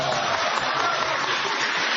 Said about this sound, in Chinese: 大家鼓掌，让他上去啊，来来。